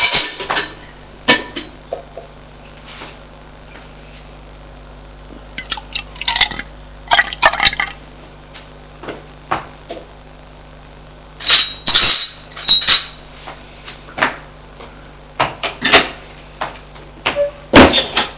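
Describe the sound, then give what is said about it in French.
Glass and dishware clink during breakfast preparation, with bursts of liquid being poured. Many sharp, bright clinks come in scattered clusters over a low steady background, with no talking. “La préparation du petit déjeuner.”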